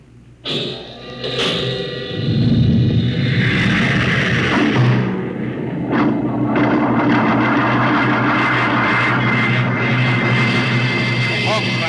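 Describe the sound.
Roar of rocket ship jets one and four firing: a sudden low thump, then a heavy, sustained rumbling blast that stays loud and dense to the end.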